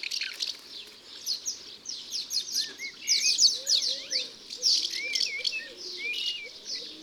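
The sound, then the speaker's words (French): Shrill, rapid chirping cries come from a bird feeding its young at a mud nest, one of several earthen nests fixed under a roof overhang. The high twittering runs almost continuously at a fairly soft level. “En voilà une qui vient nourrir ses petits. Ça va très vite. Elle passe la tête dans le nid, elle donne sa béquille d'insectes et elle repart en lançant des cris stridents.”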